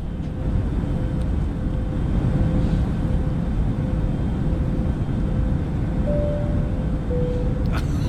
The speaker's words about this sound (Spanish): te vas a poner ambiente de avión